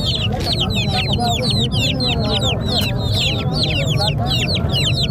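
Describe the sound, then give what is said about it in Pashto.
Free-range chickens clucking and chirping at a Friday market in Tarinkot. Many quick, high calls overlap without pause above a constant low background din. “دا بیا صحرایي مرغان دي چې د پسرلي د موسم پر اتاک سره په شمیر کې زیاتوالی هم راځي”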